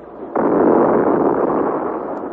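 A ball of electric fire bursts in an explosion effect: a sudden loud blast hits after a quiet start, then holds as a broad rushing roar that eases off slightly toward the end.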